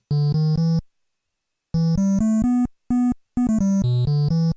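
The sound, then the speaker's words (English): A triangle channel tone from the NES video game sound chip plays a short melody of low, pure, buzz-free notes. The notes come in quick groups separated by silent pauses, and the pitch shifts slightly from note to note. “on the NES, there's also a triangle channel, which sounds like this.”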